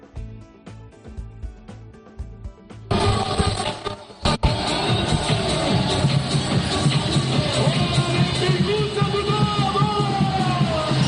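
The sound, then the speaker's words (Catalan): Crowd cheering and chanting at a street parade celebrating the Barça football team. After a quieter opening, a dense wash of many voices swells in abruptly and carries on loud and steady. “estem a la rua ara mateix, estem baixant al carrer Numància, agafem el carrer Berlín, anirem directes cap a París, moltíssima gent animant amb càntics”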